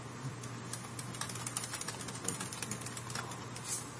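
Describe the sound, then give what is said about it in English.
Rapid clacking of an old Model M mechanical keyboard as someone types, with many quick keystrokes in an uneven rhythm, faint overall, over a steady low hum. “we listen to an old Model M keyboard rattle away”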